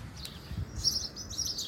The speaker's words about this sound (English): The birds are chirping away in the background behind me here in my parents' small holding just outside Ayr on the west coast of Scotland.